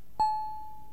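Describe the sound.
A doorbell chime: one bright ding rings out and slowly fades, alone against a quiet background.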